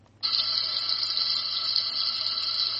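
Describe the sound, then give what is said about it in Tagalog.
Water poured into a blender cup holding peanuts: a steady hissing, splashing stream that starts abruptly and runs on without pause at an even level. “Na zuba gyada ta yanzu a cikin kofin blender dita. Zan zuba ruwa a ciki.”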